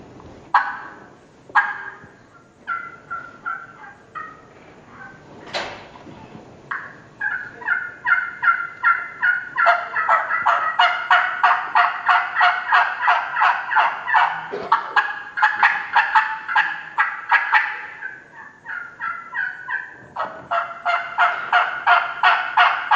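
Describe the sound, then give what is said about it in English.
Turkey hen yelps made on several turkey callers at once during a hunting seminar at a convention: many rhythmic, raspy calls in rapid overlapping series, building into long, dense runs with short pauses between. “One of my best things that I like to do is I like to run multiple calls. I like to make that old gobbler think that he's got two hens up there instead of one hen.”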